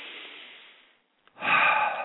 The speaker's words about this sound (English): So we ponder and take a deep breath